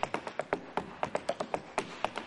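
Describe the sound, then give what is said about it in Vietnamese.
Metal-tipped tap shoes on a wooden floor, as two priests tap dance: many crisp, bright clicks in a quick, uneven rhythm, with no voices. “Với những đôi giày bọc kim loại gõ lách cách trên sàn gỗ”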